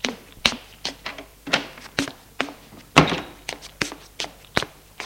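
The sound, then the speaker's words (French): Knuckles knock on a closed bedroom door in a home, many sharp wooden raps in an uneven rhythm spread across the whole stretch, each knock short and fairly firm. “Frappe à celle de Denis.”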